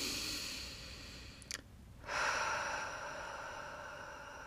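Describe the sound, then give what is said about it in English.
A single deep breath, slow and airy, with a steady breathy hiss broken by one short pause before a second long rush of air. No one speaks. “to just take one really big deep breath with me.”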